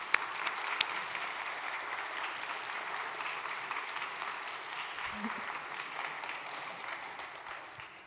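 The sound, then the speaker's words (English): An audience applauds to welcome a touring theatre organist before a Halloween film screening. Many hands clap in a sustained, even wash that slowly tapers off toward the end. “A big hand for Clark Wilson.”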